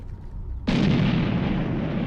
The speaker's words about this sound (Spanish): El 2 de octubre, la Operación Tifón comienza con un ataque de artillería contra las posiciones soviéticas.